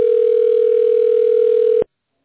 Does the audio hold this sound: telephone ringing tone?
yes

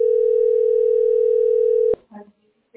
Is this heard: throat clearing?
no

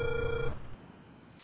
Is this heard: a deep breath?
no

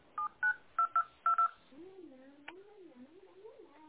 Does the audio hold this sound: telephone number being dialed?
yes

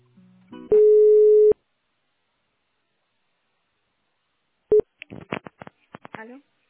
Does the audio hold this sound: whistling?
no

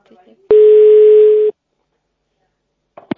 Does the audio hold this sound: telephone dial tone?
yes

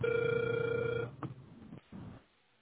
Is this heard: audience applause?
no

